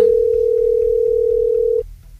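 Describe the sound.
A ringing tone plays on an outgoing telephone call as one long, steady mid-pitched tone that stops abruptly near the end, leaving faint low background hum.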